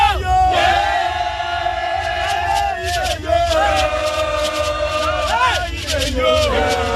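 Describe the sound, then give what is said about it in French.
Supporters of Simone Gbagbo and the FPI chant and sing slogans outside the Gbagbo family residence in Cocody, Abidjan. Many voices hold loud, sustained, rhythmic chanted phrases in repeated waves, with cries rising over the crowd. “Des chants et des slogans à la gloire du FPI et de Simone Gbagbo, on en a entendu toute la journée d'hier à la résidence de la famille Gbagbo à Cocody.”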